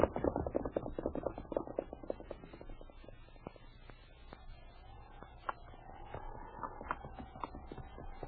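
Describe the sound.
Horse hooves clip-clop steadily as a horse is ridden along a branch trail, a run of many moderately quiet hoofbeats continuing throughout.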